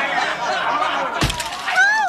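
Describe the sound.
A thrown bottle smashes with a single sharp, bright crash partway through, set amid voices talking and calling out.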